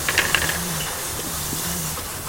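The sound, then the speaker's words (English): A bottle capping machine on a production line for rhubarb cherry drinks gives a steady, loud mechanical hiss with a low, pulsing whir underneath and a few light clicks near the start. “Let's get away from the capping machine. She's a noisy one.”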